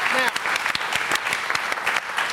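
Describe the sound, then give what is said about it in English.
Studio audience applauding Tottenham Spurs fans on a comedy panel show: steady, dense clapping from many hands at an even, fairly loud level with sharp individual claps standing out. “Hello, chaps! Give them a round of applause!”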